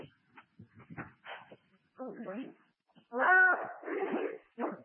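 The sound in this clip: A dog whining in short, pitched whimpers and a drawn-out wail, mixed with people talking.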